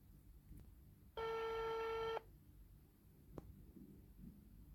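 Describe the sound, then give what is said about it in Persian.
A telephone ringing tone on an outgoing call: a single steady, buzzing electronic burst about one second long, sounding alone against a faint background hiss. “پس بریم که زودتر باشون تماس بگیریم و مصاحبهمون رو شروع کنیم.”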